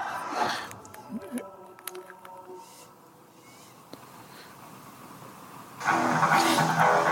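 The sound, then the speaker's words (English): A car engine revs in a Hyundai TV commercial: a low, steady rumble with a few small surges, then a louder, sustained roaring burst near the end. “now we got another car commercial. This is wild. This is a Hyundai commercial.”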